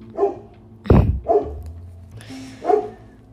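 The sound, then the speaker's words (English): A dog barks several times at uneven intervals. The barks are loud and short, with a sharp, punchy one near the start and clear gaps of quiet between them. No talking is heard. “That's my dog Leo now. We'll just listen to him for a second.”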